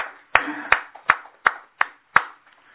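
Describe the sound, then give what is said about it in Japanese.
Six sharp handclaps in a steady, even rhythm, given as applause to mark a 20-year milestone, each clap crisp and separate with brief quiet between. “皆さん盛大な拍手でおやる”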